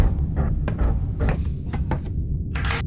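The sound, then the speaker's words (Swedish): A door being opened to answer a caller: a run of light clicks and knocks followed by a louder, brighter rattle near the end, over a steady low background hum. “Okej, du kanske har rätt. Jag går och öppnar.”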